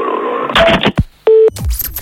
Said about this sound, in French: Eh ben moi j'appelle carrément la gendarmerie de police dans ce cas.